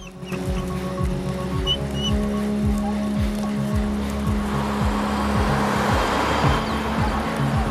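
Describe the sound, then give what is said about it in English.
Car driving over a bridge across a river in a city, a steady loud road rumble with a regular series of rhythmic thumps from the wheels running throughout. “They reach the river and stand looking at a bridge as a car drives over it.”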